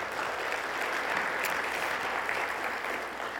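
A church audience applauds at a worship service to welcome viewers, with steady, dense clapping that stays fairly loud and unbroken from start to finish, no talking.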